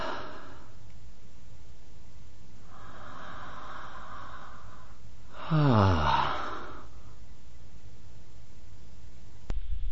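A person breathes audibly, inhaling and exhaling in a few slow, separate breaths. One breath is louder, with a rough, snorting quality.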